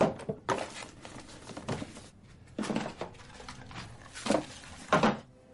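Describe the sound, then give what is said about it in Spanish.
Rummaging through drawers and desks in a bedroom during a search. There are several irregular knocks, scrapes and clatters with quieter shuffling between them, and no talking. “ha entrado en un dormitorio y revisa todos los cajones y escritorios.”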